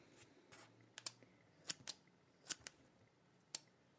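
Scissors snip through a soft squishy toy with a jelly-like inside, cutting it in half. Sharp, crisp clicks come in irregular pairs and singles, faint and with no other sound.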